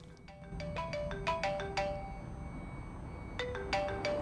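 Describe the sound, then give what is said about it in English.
A mobile phone ringtone goes off in a handbag outside a hotel: a quick melodic run of bright chiming notes, a short pause, then the tune starts again, moderately loud over faint background noise. “phone goes off, and she reaches into her handbag to look at it.”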